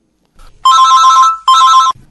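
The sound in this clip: A telephone rings for an incoming caller, giving two loud electronic ring bursts, a longer one followed by a shorter one, with no voices.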